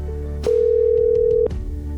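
Telephone ringing as a host calls the chosen winners, one steady mid-pitched tone lasting about a second, starting and stopping abruptly over a low background hum.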